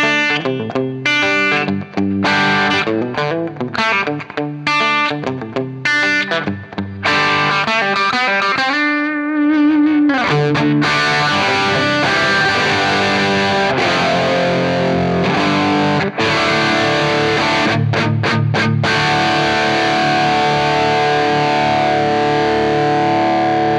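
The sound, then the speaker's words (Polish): Electric guitar through a distorted tube amplifier with high gain: loud, gritty chords and riffs with choppy stops and long ringing notes, and a brief lull about a third of the way through. “Słuchajcie, jeżeli to nie jest kwintesencja rock'n'rollowego brzmienia, to nie wiem co jest. Wzmacniacz rewelacyjny, gorąco polecam wam go sprawdzić.”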